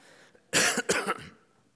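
A person coughs after inhaling saliva, two harsh, loud coughs in quick succession, the second breaking into a shorter rasping burst, then fading, alone without talk.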